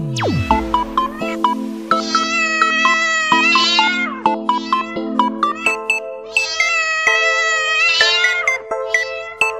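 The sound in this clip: A cat meows over and over, each meow drawn out and fairly loud, with a steady ticking pulse running underneath.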